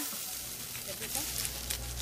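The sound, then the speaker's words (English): Onions and pork fry in a pan for a stew, giving a steady, bright sizzle that crackles continuously. “is frying up onions and pork for a quick, hearty stew.”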